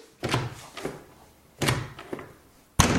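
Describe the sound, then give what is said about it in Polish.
A jammed bathroom door lock being tried: three heavy thunks of the door with lighter knocks and rattles between them, with no talk. “No zamek się zaciął.”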